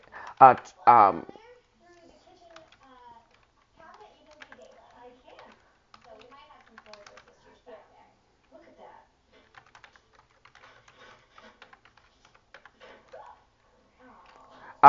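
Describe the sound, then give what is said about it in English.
Typing on a computer keyboard: many faint, irregular keystrokes clicking in bursts across the stretch, with voices talking briefly at the start and again at the very end. “I'm actually typing this in now.”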